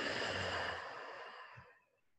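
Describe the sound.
A deep breath during a guided breathing exercise in a yoga session: one long, airy rush of breath that slowly tapers and fades to quiet, with no talking.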